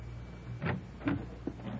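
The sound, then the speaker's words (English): The front door of a small white bungalow opening after the bell has rung: a few faint, short clunks and scrapes spaced apart, soft against a quiet background. “I rang the bell for a long time before the door opened.”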